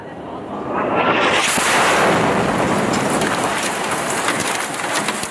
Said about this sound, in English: Videographer Hamza Kureka captured the moment an Israeli airstrike hit a building in the Rayas neighborhood on September 13th.